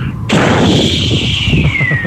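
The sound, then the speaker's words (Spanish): Fireworks rocket launching with a sharp loud burst, then a sustained shrill whistle that slowly falls in pitch over a dense crackling rumble, with no voices. “Hasta con cohetes y todo el asunto.”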